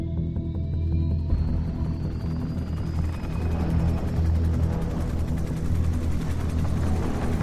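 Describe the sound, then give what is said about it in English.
A helicopter lifting off, with a loud, steady rotor drone and a rhythmic chopping beat that holds throughout. “The helicopter lifts off”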